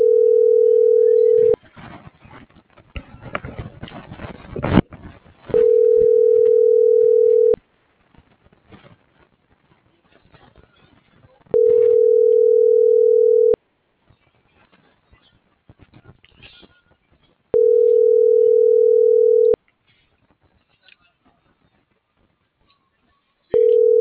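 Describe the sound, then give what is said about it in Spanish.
Telephone line tone as a call is placed: a steady, mid-pitched tone sounds in long bursts, four full ones and the start of a fifth. Gaps of faint line crackle and noise separate the bursts. “Sí, ya le estoy marcando.”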